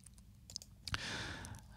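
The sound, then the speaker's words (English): A few faint computer mouse button clicks, followed by a soft, breathy sigh. “If I click the right button here, it would help, wouldn't it?”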